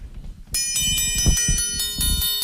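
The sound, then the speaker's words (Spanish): Tempered steel rod percussion instrument, of a kind once made by Piedrabuena forges, struck in a quick steady rhythm with a beater. Bright metallic rings sustain and overlap, with a low thud under some strikes. “Esa vara de acero templado es un instrumento bastante nuestro, que antiguamente lo hacían las fraguas aquí de Piedrabuena y que todavía las mantenemos. A ver cómo suena eso.”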